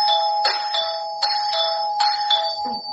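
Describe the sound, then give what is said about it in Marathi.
A doorbell rings at a house door in a rapid run of bright, ringing ding-dong chimes, struck several times in quick succession with sustained metallic tones between strikes. “दारावरील bell वाजली वाटते.”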